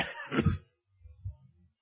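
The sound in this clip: A single short, harsh cough, a brief rough burst at the start followed by quiet.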